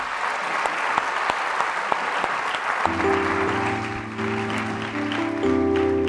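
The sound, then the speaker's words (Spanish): Applause from an audience at an evangelical church gathering, with many hands clapping densely for about the first half. Sustained musical tones then come in and carry on as the clapping fades beneath them. “Un aplauso fuerte a toda la gente que viene por primera vez.”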